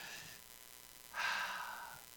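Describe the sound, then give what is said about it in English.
People at a church sermon breathe deeply in unison. A faint breath comes first, then a longer, louder airy breath, all quiet and without talk. “Can we take a minute and everybody just breathe in and breathe out?”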